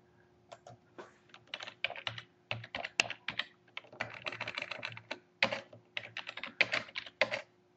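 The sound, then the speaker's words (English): Typing on a computer keyboard: many quick, irregular plastic key clicks come in uneven bursts and short pauses, with no voices. “I'm going to try and type in amazing.”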